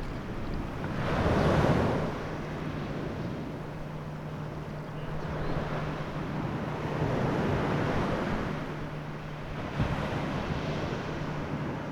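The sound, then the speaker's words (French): Waves roll onto a beach at Havre-Colombien in broad, washing surges. A few swells rise and fall over continuous surf hiss, with no voices. “Nous sommes maintenant à Havre-Colombien, sur une plage. Je marche dans l'eau avec Max.”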